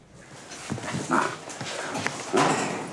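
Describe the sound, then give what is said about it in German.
A small explosive-detection sniffer dog at an airport, heard as a few short bursts of dog sounds and scuffling over a steady background hiss, with no talk. “Erster Arbeitstag für Deutschlands kleinsten Sprengstoffspürhund am Düsseldorfer Flughafen.”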